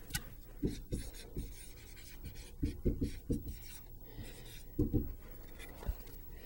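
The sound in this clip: Someone writes math by hand, making quick scratching strokes in short bursts with small pauses between them. The strokes are faint and irregular, with no talking.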